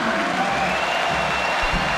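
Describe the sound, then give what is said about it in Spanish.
A stadium crowd applauds as a football player leaves the field. Steady clapping blends with general crowd noise at an even level, and a few low thuds come near the end. “Otra salida de aplauso, ¿no? Sí, se ganó los aplausos.”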